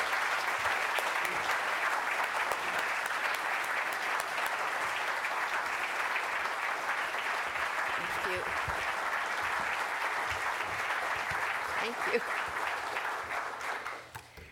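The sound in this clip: An audience applauds to welcome guests at the Los Angeles Public Library, with steady, dense clapping sustained throughout that tapers off at the very end.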